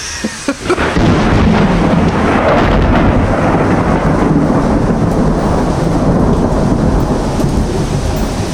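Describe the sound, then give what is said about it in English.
Thunder rolls through a storm with rain and hail, a sudden loud onset after a brief quiet moment swelling into a sustained, heavy roaring rumble laced with dense rain noise. “starting to rain, and all of a sudden rain turns to hail. Couple of more impacts, and then the thunder is, as I can hear”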